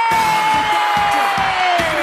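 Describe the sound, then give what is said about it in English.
Audience cheering and whooping at a live event, with one long, sustained whoop that slides slowly downward in pitch over a bed of crowd noise. “Whoa. The audience got big. They were so excited. It's growing and growing.”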